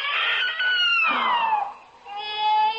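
A baby crying inside a barn, two long, high wails, the first sliding downward in pitch, then a steadier cry after a short dip.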